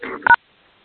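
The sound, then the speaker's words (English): Telephone keypad tones on a conference call line: a brief buzzy burst, then one short, clear two-note dialing beep, followed by silence. “Somebody's dialing on the line. Can someone mute your phone?”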